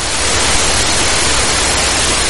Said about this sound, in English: the sound stopped and it was replaced by another type of sound, a hissing sound, which is not a sound relating to life. It's the sound of death